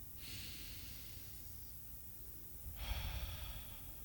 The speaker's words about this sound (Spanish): Y lo busco y respiro.